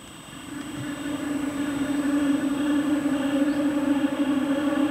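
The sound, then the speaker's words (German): A train rolling along the railway between Bayerisch Gmain and Berchtesgaden, giving off a steady droning whir with a humming tone that builds in loudness over the first seconds and then holds. “Er ist kaum zu überhören, der Zugverkehr, der hier zwischen Bayerisch-Gmain und Berchtesgaden über die 9 Schienen rollt. Schon lange, bevor man den Zug sieht, baut sich ein schwirrendes Geräusch auf,”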